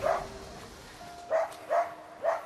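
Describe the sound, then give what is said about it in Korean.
A dog that barks hard whenever it is apart from its owner gives four short, high yelping barks, spaced unevenly and fairly quiet against a low background hiss. “보호자와 조금만 떨어져도 심하게 짖는 녀석 때문에 잠시 자리를 비우는 것도 쉽지 않았는데요.”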